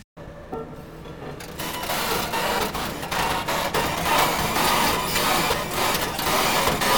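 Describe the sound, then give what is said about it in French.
Mechanical grinding and clattering from a construction machine, a dense continuous racket threaded with irregular clicks and knocking pulses, quieter for the first second or so and then holding loud and steady to the end. “cette machine de travaux fait des bruits incroyables. Tiens, d'ailleurs, j'en ai une de machine de travaux là.”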